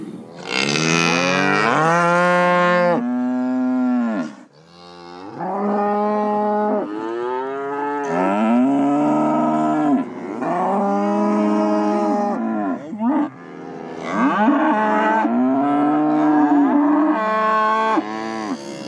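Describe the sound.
Cows and calves bellow back and forth after being separated, in long, loud, drawn-out moos that overlap almost continuously with only brief breaks, some deep and others higher and more strained.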